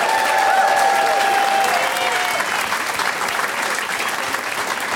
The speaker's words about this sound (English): And let's give a big warm welcome to Sean Jordan, everybody.